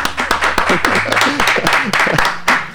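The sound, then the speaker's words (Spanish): Applause from an all-male group around a semi-round studio table: a dense run of sharp hand claps, fairly loud throughout, with several men talking over it. “Acá es un aplauso.”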